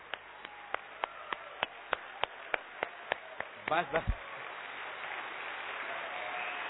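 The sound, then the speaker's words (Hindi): Audience clapping in a hall starts as an evenly spaced run of about a dozen sharp claps, followed by a few heavier thumps, then swells into a broader, sustained wash of applause. “आप सबसे पहले जोर से ताली बजाओ, इतनी जोर से बजाओ कि सारे हाल में जितने भी लोग बैठे हैं बहुत जोर से, कमान keep it everybody, big clapping.”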